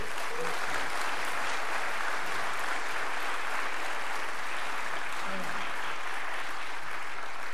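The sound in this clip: Audience applause welcoming guests at a church service, dense and steady clapping that stays even throughout without a break.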